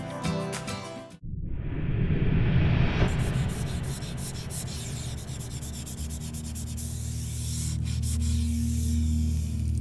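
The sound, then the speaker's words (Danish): Rosin being rubbed onto a violin bow makes a steady, rough, scratchy friction that runs on continuously for several seconds after a short, different sound at the start. “Jeg smører harpiks på buen, for den får bedre fat i strengene, og klangen bliver renere.”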